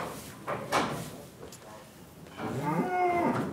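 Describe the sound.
A lone cow moos after being separated from its herd, one drawn-out, low call coming at the end after some quieter shuffling sounds.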